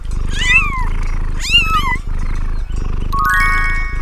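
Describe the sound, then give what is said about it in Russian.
A cat gives two rising-and-falling meows over a continuous low rumbling purr, followed near the end by a light jingling tinkle. “Кошка.”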